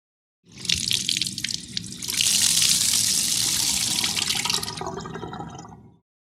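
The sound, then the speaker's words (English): Tap water runs and splashes as a toy is washed, a steady hissing gush that starts abruptly, swells fuller midway, then fades and stops near the end. “Here comes Roy to wash the toy.”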